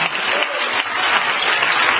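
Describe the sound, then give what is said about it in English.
A church audience clapping their hands in worship, a fairly loud, steady, dense patter of many hands that continues without a break. “Could you clap your hands to the Lord?”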